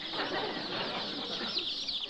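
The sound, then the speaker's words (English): Chicks cheeping in a brooder kept warm at 90 degrees: a dense, continuous chorus of high, thin peeps that overlap without pause throughout. “I'm giving the chicks names.”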